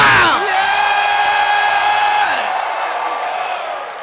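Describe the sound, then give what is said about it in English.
Shouting and whooping from a church audience during a sermon, a loud, continuous blend of raised voices with a whoop that drops in pitch near the start, fading slightly toward the end. “If you are happy about that, clap your hands and give the Lord a”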